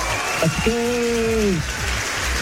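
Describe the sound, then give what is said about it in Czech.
Long, continuous applause at a radio station prize announcement: an even rain-like patter of clapping that runs unbroken throughout, with a voice briefly speaking over it. “To je nekonečný potlesk.”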